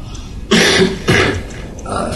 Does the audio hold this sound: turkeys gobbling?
no